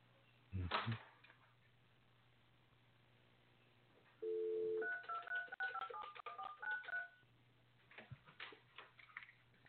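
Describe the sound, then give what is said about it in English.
Telephone dialing tones as a caller dials in by phone: a sharp click, then a steady held tone, then a quick run of keypad beeps at shifting pitches, ending in a few soft scattered clicks. “Gail, my direct connect, I hate to tell you this, it just kind of like died on me, so I had to dial in on the phone.”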